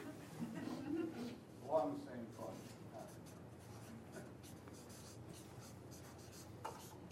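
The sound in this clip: Writing on a board during a class, soft scratchy strokes continuing steadily and quietly beneath people talking.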